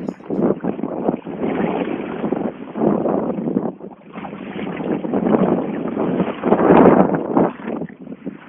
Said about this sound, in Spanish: No sé si escuchan el mar y el viento de fondo, pero me encuentro en un lugar hermoso realmente.